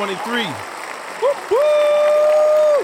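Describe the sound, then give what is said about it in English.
Audience applause, a steady wash of clapping with a few whoops early on, then one long sustained cheer held over the clapping through the second half. “Here, let's have another round of applause, baby.”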